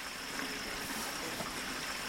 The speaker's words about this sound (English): Mr. Kuali points to a ditch containing a small trickle of water.